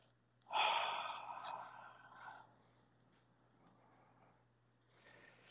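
A deep breath during a Reiki breathing exercise rises sharply and trails off over about two seconds, followed by a fainter breath near the end, over a low steady hum.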